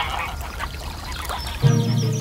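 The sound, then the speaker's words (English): Geese honking: a loud, harsh, buzzy call breaks in shortly after the midpoint and carries on to the end. “They watched the geese until it grew dark in the evening, and then drove them homewards.”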